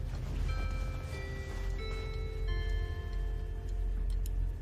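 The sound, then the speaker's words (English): Steady ticking of a clock on a mantel, an even rhythm that continues through the whole clip at a moderate, fairly quiet level, with a few faint sustained tones under it and no voices. “On the mantle, the clock next to Daniel's picture strikes midnight.”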